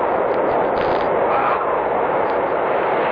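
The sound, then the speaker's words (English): Gasoline fumes exploding after a match is struck in a radio drama, heard as a loud, dense roar that holds steady throughout with no separate bangs. “Strike a match and the gasoline fumes. The fumes, Florence, they'll explode.”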